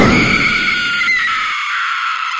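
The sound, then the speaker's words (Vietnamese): A girl screams in fright: one loud, sustained, high-pitched shriek that holds steady for over two seconds with no talking. “Quá sợ hãi, con nhỏ lúc này mới hét toáng lên, làm cả phòng giật mình tỉnh dậy.”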